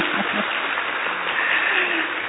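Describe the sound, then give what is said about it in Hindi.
An audience claps for a small children's dance performed as a welcome, a steady, dense and somewhat muffled patter of applause, with a brief voice near the start. “यदि इन छोटे बच्चों की प्रस्तुति पसंद आई हो तो जोरदार ताली बजाइए।”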